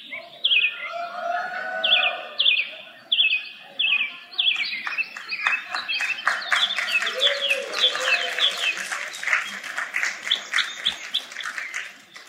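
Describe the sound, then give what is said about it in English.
Birdsong: many high, rapid chirping and trilling phrases repeating throughout, fairly loud, shifting in pattern as the song goes on. “Can we sing some quiet? We're gonna hear the bird sing now.”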